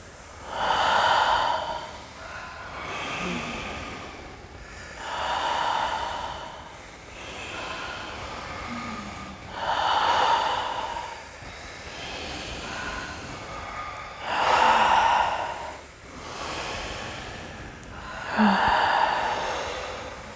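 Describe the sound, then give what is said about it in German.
Slow, deep breathing paced through a guided relaxation exercise. Each long, airy inhale and exhale swells and fades in a steady, unhurried rhythm, with many breath sounds and no talk. “Und dann nehmt in eurem eigenen Rhythmus die letzten 5 Atemzüge.”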